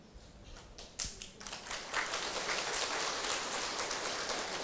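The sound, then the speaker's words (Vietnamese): Audience hand clapping, a few scattered claps at first, then a louder, denser burst of applause that swells and holds steady to the end. “Con chưa chồng mà vỗ tay dữ vậy.”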